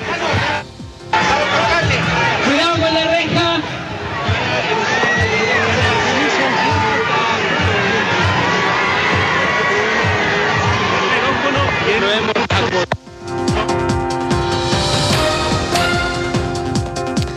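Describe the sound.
Crowd of rally-goers at a citizens' farewell for the President of the Republic in the Plaza de la Constitución, a dense, loud roar of cheering, shouting and chanting voices that holds steady throughout, with a brief dip before the sound shifts near the end.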